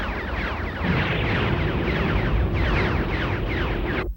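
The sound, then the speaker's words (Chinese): A warship fleet opens a cannon bombardment in an anime battle: a loud, sustained roaring barrage threaded with repeated downward-sweeping whooshes, holding steady before cutting off abruptly. “前方有走廊内的敌营， 全舰发动炮击。”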